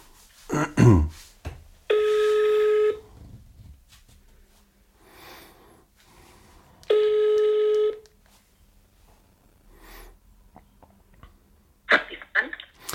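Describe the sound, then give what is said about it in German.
A telephone on speakerphone is dialed with a quick burst of tones. Two long, steady ringing tones follow, roughly five seconds apart, with quiet gaps between them and a brief louder sound at the very end. “Warte mal, ich rufe meine Mama an. Moment. Mal sehen, ob sie da ist. Ich mach mal laut.”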